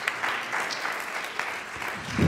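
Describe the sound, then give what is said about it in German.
Brief audience clapping that runs as a continuous patter for about two seconds at a moderate, slightly uneven level, without talk. “Ja, könnt ihr ruhig für klatschen.”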